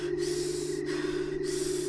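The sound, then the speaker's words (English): A woman breathes heavily as she tries to catch her breath after running. A few rapid, hissing breaths follow one another with brief pauses between them, over a steady low hum. “She hears nothing, aside from her own breath that she attempts to catch.”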